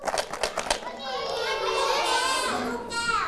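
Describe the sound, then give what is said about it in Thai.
A homemade shaker filled with stones rattles in a few quick, gritty bursts at the start, then falls silent as children's voices take over, talking and calling out together. “เฉลยคุณครูแพลวนะคะใส่หินเอาไว้”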